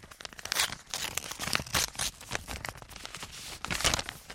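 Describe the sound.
Paper crinkling and tearing as an envelope is opened in front of a microphone, a steady stream of crackly rustles lasting several seconds with no voices.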